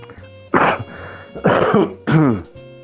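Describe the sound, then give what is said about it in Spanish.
Three harsh, throaty coughs from a man, evenly spaced, each loud and abrupt with short quiet gaps between them. “perdón por la tos”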